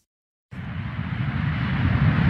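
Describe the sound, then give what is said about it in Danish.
Steady airplane cabin drone before a flight to Malaga: a loud, broad, even rumble that starts abruptly after half a second of silence and holds constant with no voices. “Velkommen ombord på dette fly, der går til Malaga.”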